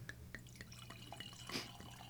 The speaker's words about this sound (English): what are you pouring for me here? This is a 2014 Willamette Valley Chardonnay.